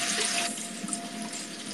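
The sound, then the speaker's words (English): Running tap water pouring over canned beans as they are rinsed, a steady, even hiss of water with no pauses. “That's about half the can. Washing beans!”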